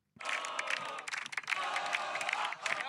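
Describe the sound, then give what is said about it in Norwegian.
A football cup-winning team cheers together, many voices shouting and whooping at once in a faint, bright, continuous clamour. “Dette er lyden av vinnere.”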